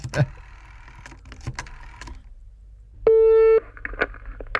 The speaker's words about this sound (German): Ja, ich habe ja direkt auch den Telefonapparat hier vor mir stehen. Und dann haben wir schon vorbereitet, eine Nummer rausgesucht. Und die wähle ich jetzt einfach mal an.